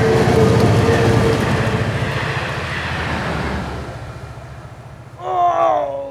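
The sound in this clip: A train rumbles steadily in an animated cartoon chase, a loud continuous roll that eases slightly before a short, wavering horn-like tone sounds near the end.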